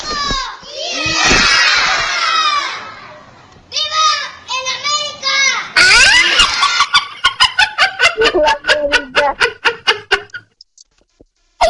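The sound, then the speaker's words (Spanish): A Mexican grito, a person's loud shouted cry, opens with a long sustained wail and breaks into shorter yelps. It ends in a rapid run of many staccato whoops that grow fainter. “este grito está más chido que los otros dos”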